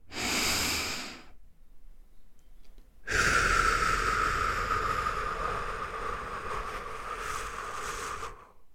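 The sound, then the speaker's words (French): Slow abdominal breathing during a guided relaxation exercise: a short airy inhale through the nose, a pause, then a long, steady exhale through the mouth that slowly fades, heard alone without talk. “inspirez par le nez en sentant votre ventre gonfler, puis expirez longuement par la bouche en sentant votre ventre se creuser.”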